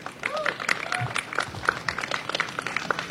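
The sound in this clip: Audience at a talk clapping as a speaker is welcomed, a fairly faint patter of scattered claps mixed with a few voices from the crowd.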